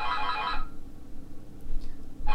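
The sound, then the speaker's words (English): A home telephone rings in two short bursts, a bright warbling trill at the start and another cutting in at the very end, with a quiet low hum in the gap between. “that's our phone. Hopefully someone else will pick it up in a minute.”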